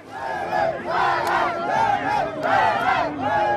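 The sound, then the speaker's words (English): A crowd chants an anti-French slogan outside the French embassy in Niamey, Niger, waving Russian flags. Loud, rhythmic massed voices repeat phrase after phrase in a rising and falling cadence. “crowds waving Russian flags and chanting "Down with France" stormed the French embassy in Niamey”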